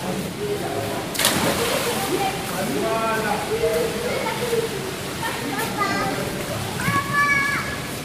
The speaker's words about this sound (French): Nous sommes en direct de la piscine Rosa Parks